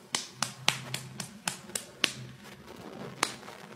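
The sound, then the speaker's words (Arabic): Sharp, light claps from a woman striking one hand into the palm of the other, several in a quick even run, then a pause and one more. “المرأة صفق بيدها في بطن كفه على الله أخرى هكذا،”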